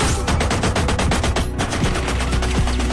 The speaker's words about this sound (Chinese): 小 K 说着，朝着躲在门后的保镖打完了枪里的最后几颗子弹，便飞身上了停在燕子六身后的轿车。